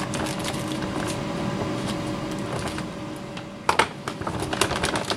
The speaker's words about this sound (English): I'm just going to cut the bag open. It's a lot easier than messing around with it. I cut the bag.